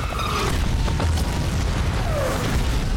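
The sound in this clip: Shell explosions boom over a besieged fortress, a loud, steady low roar threaded with crackling bursts that runs without a break and with no talk.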